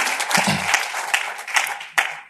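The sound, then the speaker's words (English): Applause from an audience in a room during a speech about Chicago: dense, loud clapping that holds steady for the whole stretch, with a few sharper individual claps standing out. “Clap it up for Chicago, everybody.”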